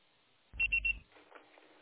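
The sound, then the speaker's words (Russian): Three short, bright high-pitched beeps in quick succession mark a voicemail signal tone on a phone line, with a dull low thump underneath and quiet line noise before and after. “Пожалуйста, попробуйте перезвонить позднее, или оставьте сообщение после звукового сигнала.”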